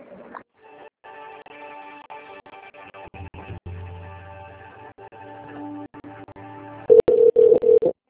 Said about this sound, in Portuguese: eu vou transferir a ligação, viu?